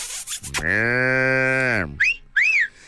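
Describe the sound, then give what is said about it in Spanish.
A calf moos once in a long, steady, harmonic bellow lasting over a second. Two brief, high chirping whistles follow. “Te mando, mira, un becerro, ahí te va. Becerro, ¿dónde andas?”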